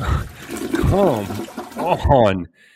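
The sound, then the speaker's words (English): A toilet flush sound effect: a rushing, gurgling burst of water that runs steadily, then cuts off abruptly near the end, with a voice-like warbling tone riding over it. “Cue the toilet flush.”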